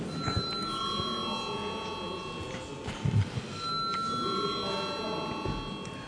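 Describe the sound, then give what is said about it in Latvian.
Electric bell rung in a parliament chamber before a vote, a sustained metallic ringing held steadily across the whole stretch over a low murmur of voices. “Komisija lūdzu akceptēt šo likumprojektu pirmajā lasījumā. Lūdzu zvanu.”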